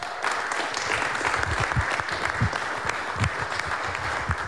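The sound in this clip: Audience applause greets a performer coming back on stage for the second half of a live concert. The clapping is brisk and continuous, with individual hand claps popping out of a steady, lively wash.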